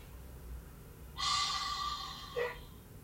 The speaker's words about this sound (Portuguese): Enche os pulmões de ar e solta.